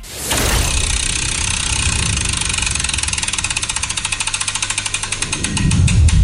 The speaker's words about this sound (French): Moi, ce que je te propose, c'est que tu me donnes ton go et que je lance la roue qui va eh bien, nous dire à quel jeu on va jouer.